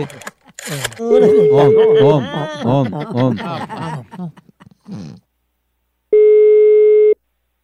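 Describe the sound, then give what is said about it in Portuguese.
Telephone call tone heard while dialling, after a stretch of talking. One steady, mid-pitched electronic beep lasts about a second, sounding alone after the voices stop. “Vou ligar agora para Clabiano.”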